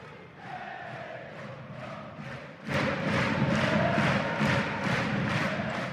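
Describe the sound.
Football fans of City chant loudly in a stadium. Massed male voices sing together over a rhythmic pulse, and the sound jumps to a fuller, louder roar about halfway through.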